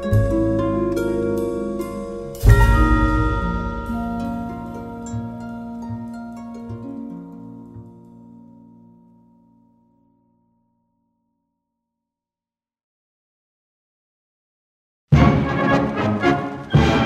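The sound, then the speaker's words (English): A march performed by the German-American Bund, founded 1936, plays loudly with full harmonic sustained tones and a strong accent early on, then fades to several seconds of silence before the music returns abruptly near the end. “And that's the sound of the Stonemasons March of the German-American Bund.”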